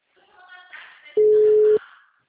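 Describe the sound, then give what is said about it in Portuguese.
An outgoing telephone call gives one steady, even ringing tone lasting about half a second, preceded and followed by faint murmuring voices. “eu estou fazendo ligação”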